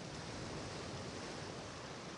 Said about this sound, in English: And as the waves wash over the unspoiled sand towards you,